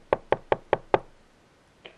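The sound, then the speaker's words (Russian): Knocking on a door: five sharp, evenly spaced raps in quick succession, then a single fainter knock after a short pause. “И тут вдруг раздался стук в дверь.”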